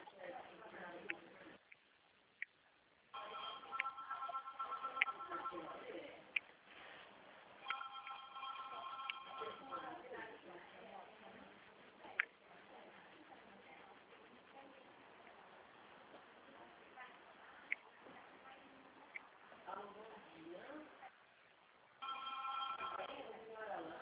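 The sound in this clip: Faint telephone ringing with an incoming call: rhythmic tonal rings that come in separate bursts, heard under ongoing talk.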